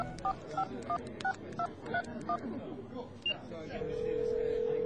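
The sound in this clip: A telephone keypad dialing a call: a quick run of several dual-pitched beeps over murmuring background noise, ending in a single steady held tone.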